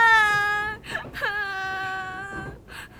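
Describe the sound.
A child cries in long, drawn-out wailing sobs, high and strongly tonal, broken by a few short catches of breath between the sustained whimpering cries.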